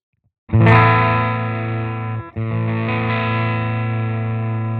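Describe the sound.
An electric guitar plays through a clean amp with the distortion turned fully down, leaving only slight grit. A bright chord rings out loudly, is briefly cut off, then is struck again and sustains evenly.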